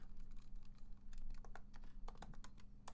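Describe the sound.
Rapid typing on a computer keyboard, a dense stream of irregular, crisp clicks and taps that runs steadily throughout at a moderate level with no voices.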